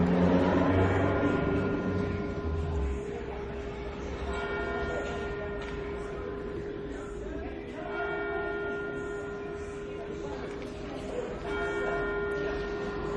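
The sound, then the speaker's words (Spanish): Church bells ring without pause, their sustained, overlapping metallic tones steady and fairly loud throughout, with a low rumble underneath at the start. “qué lindo el sonido de las campanas de la iglesia, me dan ganas de ir a rezar”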